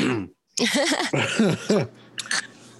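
A person clears their throat with a few rough, gravelly voiced bursts, fairly loud and close together. The sound then tails off into a couple of brief, quieter scrapes.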